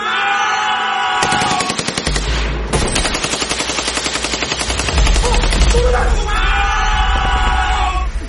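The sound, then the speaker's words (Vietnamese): Heavy gunfire as four soldiers open fire together and shout a charge: dense, rapid bursts of shots run continuously and loudly, with shouting voices mixed into the din. “Cả bốn thằng cùng đồng loạt nổ súng và hô xung phong.”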